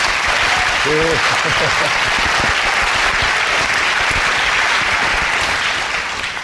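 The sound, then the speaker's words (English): Applause from an audience welcoming a speaker, a recent high school graduate, to the stage. The clapping is dense and continuous and tapers slightly at the very end. “I want you to give her a big warm welcome right now.”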